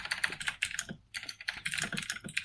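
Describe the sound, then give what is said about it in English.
Rapid typing on a computer keyboard, a dense, quick clatter of keystrokes with a short pause about one second in, then resuming at the same brisk pace. “Oh, notepad. My God. That keyboard is impressive.”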